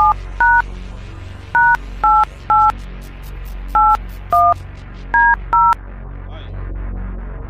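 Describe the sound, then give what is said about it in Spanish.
Touch-tone beeps as a telephone number is dialed for a call: nine short, loud dual-tone beeps come in uneven groups over a low steady hum, and the hum continues after the last beep. “Ahora sí, voy a la llamada, ahora mismo, voy a la llamada.”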